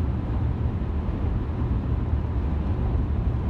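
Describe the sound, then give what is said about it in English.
Car driving through an open field in St. Louis: a steady, rumbling low engine and road roar that holds even throughout, with no talk over it. “Like, even right now, I'm driving through this open field in St. Louis.”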